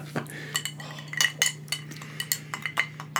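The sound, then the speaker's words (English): A new cocktail spoon clinks and taps against glass or metal, making many light, bright metallic chinks in an irregular rhythm. The clinks are faint and sit over a low, steady hum. “Oh, here's my new cocktail spoon.”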